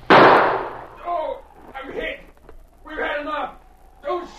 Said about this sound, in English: Only one of them's firing now.